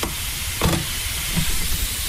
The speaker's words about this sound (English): mince in the pan, very important to give it a nice stir. Making sure that's nice and broken up.